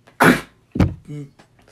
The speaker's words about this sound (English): We have patient zero here. That was a sneeze.